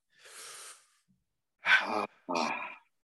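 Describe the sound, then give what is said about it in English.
Deep breathing: a soft, airy inhale comes first, followed after a pause by two louder, breathy exhales with some voicing in them, each lasting under a second. “first let's just take a little deep breath. Are you ready? Ready for a little deep breath? Yeah, a little ASMR here.”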